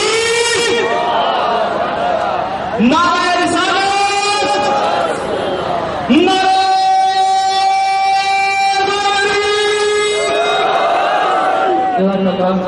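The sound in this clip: Crowd chanting slogans together at a large Muslim religious gathering, long drawn-out voiced calls sung in unison across several phrases, loud and sustained with brief breaks between lines.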